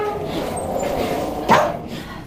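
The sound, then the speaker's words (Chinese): Brief yip from a small dog in a neighbour's yard, one short sharp bark rising over a steady background with muffled voices. “狗没事，就小狗来进来。”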